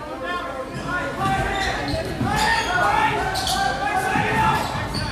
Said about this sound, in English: They're trying to get it past half court, and they do. Dribbling.